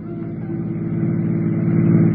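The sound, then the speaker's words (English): A police prowl car's engine gives a steady, low, droning hum as the car drives along. It holds an even tone and grows slightly louder toward the end, with no voices. “Next thing I knew, I was inside the prowl car and we were on our way, but not towards town.”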